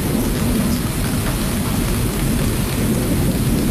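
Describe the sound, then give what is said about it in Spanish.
Heavy rain pours in a steady, dense roar, loud and unbroken throughout, with no voices. “Están lloviendo en casi todo el centro del país. Llueve, llueve, que te llueve. Demasiada lluvia.”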